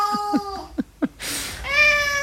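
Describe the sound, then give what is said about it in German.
A cat meowing: a quick series of short, chirpy meows, followed by a brief noisy burst and then one longer, steady, drawn-out meow. “wenn sie hier so miaut”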